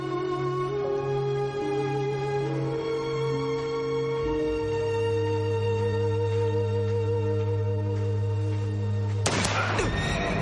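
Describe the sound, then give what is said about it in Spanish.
A horse startled on a beach in a western film scene gives a short, sharp whinny near the end, a sudden burst cutting over a sustained, droning musical score. “El caballo se asusta y todos caen al suelo.”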